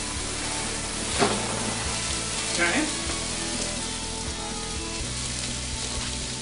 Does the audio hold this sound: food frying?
yes